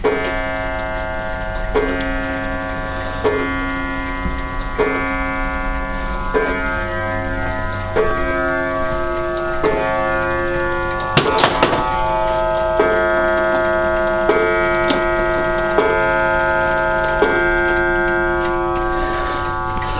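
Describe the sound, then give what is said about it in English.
A chime clock ticks in an even, regular rhythm throughout, with a resonant metallic ring sustained underneath and one brief, louder clatter about midway. “That is my chime clock, which I acquired off my gran when she passed away in February.”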